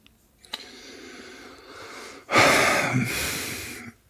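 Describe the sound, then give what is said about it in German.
One deep, drawn-out inhale, a loud breathy rush lasting over a second, comes after a stretch of quieter hiss and a faint click. “Merkst du dieses tiefe Einatmen?”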